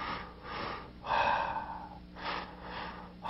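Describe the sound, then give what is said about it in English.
Breathing from a person demonstrating a double-step inhale during a breathing exercise with muscle clenching. It comes as a few airy, hissing breath bursts, one longer and stronger than the rest, with quiet gaps between them and no talking. “The third breath is a step breath on the inhale, a double step. So it's like this.”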